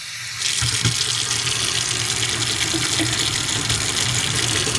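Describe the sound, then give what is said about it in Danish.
Hot and cold water runs from a tap with a steady, loud hissing rush that starts abruptly and stays even to the end, with no voices. “da skal jeg spille over et lite opptak her av varmt og kaldt vatten”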